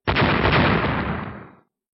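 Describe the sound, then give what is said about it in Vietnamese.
A huge explosion as great stars burst apart after being struck by a hurled stone and turn into fireworks. One loud, dense blast rumbles steadily for over a second, then cuts off sharply. “Ở ngoài vực, một số ngôi sao lớn trực tiếp nổ tung, đã bị đả thần thạch đập trúng, hóa thành pháo hoa rực rỡ”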